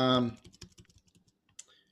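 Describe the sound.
Typing on a computer keyboard: a brief voice opens, then a quick run of many light, irregular key clicks that thins out toward the end.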